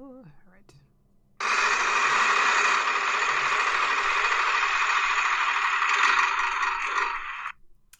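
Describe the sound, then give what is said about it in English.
A prize wheel spins with a dense, continuous rattling clatter that starts abruptly, runs at a steady loud level for about six seconds and then stops sharply. “Do we have a topic? Let's spin that wheel.”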